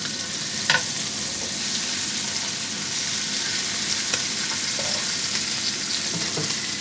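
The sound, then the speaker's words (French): Scallops sizzle in the leftover cooking juices of a pan after the heat is switched off, a steady crackling fry with a few brief clicks as they are turned. “Une fois que le feu est coupé, je retourne les Saint-Jacques dans le jus de cuisson qui reste.”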